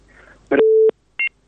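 Telephone tones as a call connects on a radio phone-in: a brief electronic burst, then a steady low tone, then a short higher double beep, loud and alone.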